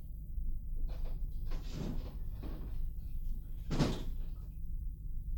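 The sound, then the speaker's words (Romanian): A terrace door is opened with a few brief knocking and scraping sounds over a steady low hum. The loudest burst comes near the end. “Deschide ușa de la terasă.”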